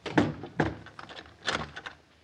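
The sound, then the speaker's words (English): A front door is shaken to check that it is locked, giving a few irregular rattling knocks and thuds of wood and hardware, fairly quiet and uneven in rhythm. “I want to make sure this front door is locked.”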